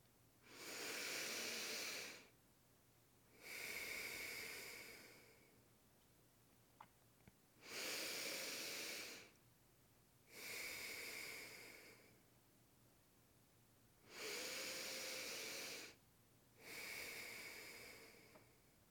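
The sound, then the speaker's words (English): Three slow, deep breaths, each an airy inhale followed by a hissing exhale, evenly paced with quiet gaps between them, faint over a low constant hum. “Please place one hand on your heart and one on your belly. Now we will take three deep breaths.”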